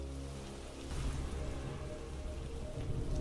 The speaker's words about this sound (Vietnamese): Ngoài trời bắt đầu đổ mưa, sấm sét đùng đùng vang dội, những tia sét xé toạc bầu trời đêm tăm tối.